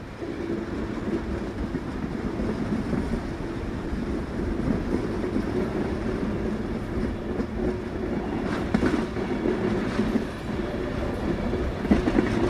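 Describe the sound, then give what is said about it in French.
A train runs on the Quebec North Shore and Labrador iron-ore railway through Labrador and northern Quebec, giving a continuous rumbling roar with faint clattering of wheels on rail, a little rougher near the end. “le chemin de fer que la Quebec North Shore and Labrador Railway a construit entre 1948 et 1952 pour exploiter les énormes gisements de fer du Labrador et du Nouveau-Québec.”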